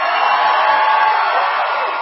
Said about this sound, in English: Ahead of the president's speech, patriots in the crowd shouting, USA!